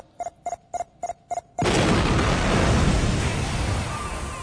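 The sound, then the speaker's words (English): A missile strike explosion hits a spaceship under attack, with five short, high alarm beeps followed by a sudden loud blast whose heavy roar slowly fades. “A missile? Do we have shields? Yeah, but probably not for long. 3 seconds to impact. Brace yourselves!”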